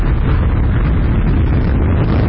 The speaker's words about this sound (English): SpaceX has successfully launched four astronauts into space aboard a recycled rocket about 6 a.m. Eastern Friday morning. 2-1-0. Vehicle's pitching downrange.